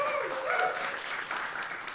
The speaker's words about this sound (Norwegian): det lov å klappe for det